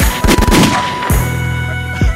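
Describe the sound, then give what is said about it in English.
Gunshot sound effects punch through a rap track: a quick cluster of sharp bangs, then two more single shots, all loud over sustained musical tones. “my gunshots are really adding to this.”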